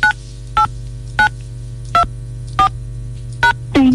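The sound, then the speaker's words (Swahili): Telephone keypad tones sound as a radio host dials a listener: six short, bright dual-tone beeps at uneven intervals over a steady low hum. A longer tone starts just before the end. “Haya, kwa hivyo ningependa kumpigia Nicholas ili tusikie vile anatueleza na tuone vile.”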